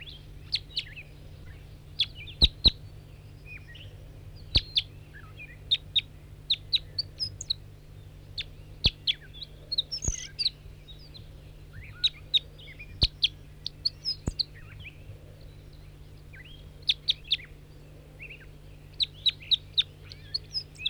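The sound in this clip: Bird song: many short, high chirps and tweets in irregular bursts throughout, faint over a steady low hum.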